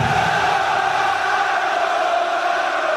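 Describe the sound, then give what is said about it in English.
About 70,000 soccer fans cheering AC Roma at the Stadio Olimpico in Rome: a sustained, loud crowd roar with a chanting, tonal quality that holds steady without breaks. “That's the sound of 70,000 fans at the Stadio Olimpico in Rome. Roma, Roma, Roma. They're cheering one of the world's most famous soccer teams, AC Roma.”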